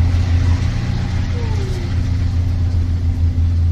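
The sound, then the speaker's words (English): Shuttle bus driving, the last of the day headed back to a visitor center, a steady low engine rumble with road noise that holds throughout, with a faint rising whine briefly in the middle. “We pack up and run down, barely making the last bus of the day. This bus is headed back to the visitor center.”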